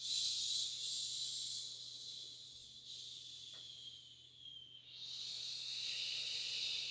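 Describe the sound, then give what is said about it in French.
A long breathy "ch" hiss comes as a person releases air during a breathing exercise while pressing the earlobes. The hiss is soft and steady, thins briefly near the end, then swells again over a faint low hum. “vous chantez ce petit « ch » quand vous lâchez l'air.”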